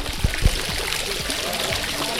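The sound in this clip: Running water from a village water purification project in Bani Hayyan: a faint, steady trickling and splashing flow, with a couple of soft low thumps near the start.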